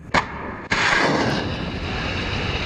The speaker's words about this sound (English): Dramatic video shows flashes of light on the deck of a U.S. warship as it launches Tomahawk missiles at Syria into the darkness overnight.